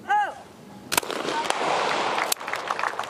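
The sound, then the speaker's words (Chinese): Two sharp shotgun blasts at clay targets in a mixed team trap shooting final, each a sudden loud crack with a short decaying tail, heard with people talking. “比赛继续啊。接下来将要射击的是卡塔尔队的女选手巴西勒。”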